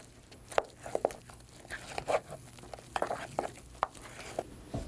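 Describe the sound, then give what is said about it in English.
Hands knead bread dough made from flour, water, salt and yeast, pushing and punching it. The result is soft, irregular squishing pats and slaps, faint and uneven in rhythm. “This is my favorite part of making bread, kneading the dough. You push it, punch it, poke it, you mush it, mash it,”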